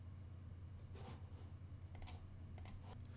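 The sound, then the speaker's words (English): Computer mouse button clicks: a few quick, faint clicks in the second half, under a constant low hum with no talking. “I'll click the Create Gateway button in the bottom menu bar, and it's going to make me confirm that I actually do want to do this, and I'm going to click Yes.”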